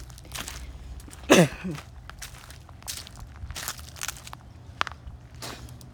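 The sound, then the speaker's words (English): Footsteps walk toward a pond as a series of faint, uneven crunching steps, with one louder crunch early on. “I'll walk over to the pond again and see if they're still there or not.”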